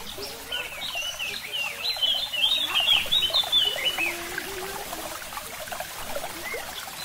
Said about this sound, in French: On entend de l'eau aussi, hein. C'est un peu apaisant, hein.